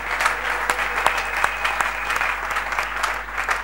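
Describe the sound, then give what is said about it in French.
A church audience applauding during a worship service: dense, steady clapping that fills the whole clip with sharp claps scattered through it, with no talk over it. “Est-ce qu'on peut encore acclamer le Seigneur Dieu?”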